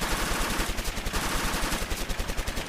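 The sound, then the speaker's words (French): Machine guns fire in rapid, rattling bursts as firing squads execute prisoners near the Roquette prisons, a dense continuous stutter of shots with small pulses in loudness, no voices. “Du côté des prisons de la Roquette se font à nouveau entendre des rafales de mitrailleuses. Ce sont les Versaillais qui fusillent.”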